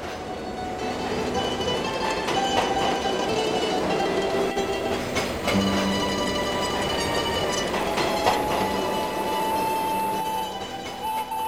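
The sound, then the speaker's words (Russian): A train travels on rails with a loud, steady rolling rumble and metallic clatter that runs without a break, broken now and then by brief high wheel squeals. “поезд никогда не доберется до цели. Так бесконечно долгой была эта дорога.”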